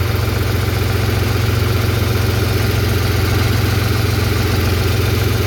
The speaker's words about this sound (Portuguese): Esse era o barulho de dentro da cabine do caminhão dele.